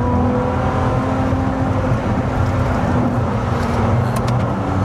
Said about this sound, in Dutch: En hij klinkt echt waanzinnig. Ja, de Ferrari 296 speciale, dit doen ze gewoon wel echt, echt, echt heel erg goed, hè, bij Ferrari